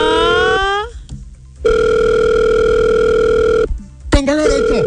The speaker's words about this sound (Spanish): Tenemos llamada telefónica, a ver, nos enlazamos.